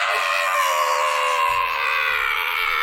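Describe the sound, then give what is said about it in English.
A voice imitating a woman screaming: one loud, sustained, high-pitched shriek held for about three seconds. “And then she started looking at us and she just started screaming like,”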